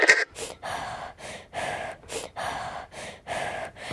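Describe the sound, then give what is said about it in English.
Breathing in and out during a calming deep-breathing exercise: a steady run of many short, breathy bursts that repeat about every half second at an even, moderate level, with no talking. “take some deep breaths and calm down. Breathe in for one, two, and hold. Now out for one, two, three, four.”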